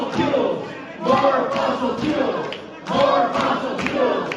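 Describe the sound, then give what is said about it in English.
An audience at a political event chants a short phrase in unison, the loud crowd voices rising in repeated rhythmic bursts with brief dips between them. “So this is the audience chanting as they get up there.”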